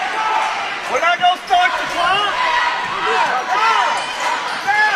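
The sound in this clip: A basketball is dribbled up the court in a college game, with rhythmic bounces amid steady crowd noise and sharp sneaker squeaks.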